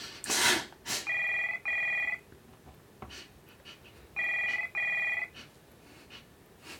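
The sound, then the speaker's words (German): A telephone rings in two double rings, each made of two bright electronic trills, with a short gap between the pairs. A couple of faint knocks come before the ringing starts, and no one speaks. “Ich würde rangehen an deiner Stelle.”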